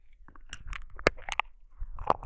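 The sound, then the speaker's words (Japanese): Wet, close mouth sounds of nibbling and chewing on an ear: soft smacks and small crunchy clicks, with a few sharper bites standing out from a low, moist rustle. No speech. “お兄さんのお耳、おいしい。”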